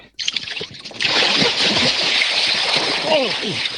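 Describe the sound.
People jumping into a lake for a naked swim: a sudden burst of loud splashing and rushing water begins about a second in and continues to the end, with excited voices before and during it.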